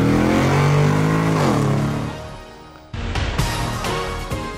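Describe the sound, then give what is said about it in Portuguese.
Car shifting into first gear and accelerating: a loud, droning engine note that falls in pitch and fades, then a sudden burst as the engine surges again, with a few sharp bumps in the roar. “engata a primeira e acelera!”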